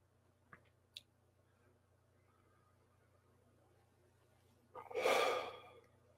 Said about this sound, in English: So we're doing 5 more underwater breaths.